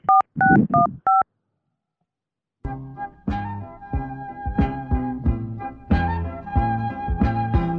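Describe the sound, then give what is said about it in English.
Touch-tone telephone dialing sounds as four quick beeps while a call is placed. After a short silence, a run of melodic tonal notes follows, like hold music. “I'm going to place a call over to the people at Complaints Board, and I'll put you straight in touch with them to get this removed.”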